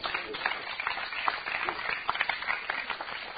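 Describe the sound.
Audience applause welcomes a speaker at a Narcotics Anonymous meeting: dense, steady clapping from many hands that holds at an even level throughout, with no voices standing out.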